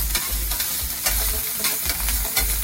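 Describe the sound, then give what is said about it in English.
Food sizzles in a pan that had gone dry until a little more oil was added to the sauce, with a steady frying hiss broken by a few scraping stirring strokes. “Now the pan looks a little dry. Don't be afraid, just add a little bit more oil.”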